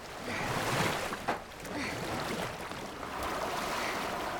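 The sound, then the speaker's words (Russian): A boat is rowed with oars on moving water, producing a continuous fairly quiet wash of splashing and rushing water with a few slightly stronger swells. “начинает грести медленно, затем быстрее.”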